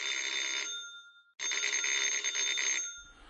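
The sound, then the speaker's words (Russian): A rattling telephone bell rings in two long, loud metallic bursts separated by a brief pause, the first ring fading before the second starts. “Дребезжащий звонок телефона прервал мысли.”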